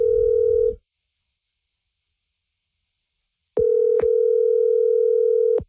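A telephone line sounds its tone when a number is dialed. A steady mid-pitched electronic tone cuts off abruptly and falls silent for about three seconds. The same tone then returns and holds for roughly two seconds.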